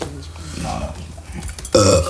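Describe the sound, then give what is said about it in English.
A person burps, letting out one loud, deep, raspy belch at the end after a quieter, murky stretch. “Okay, a lot of burping going on.”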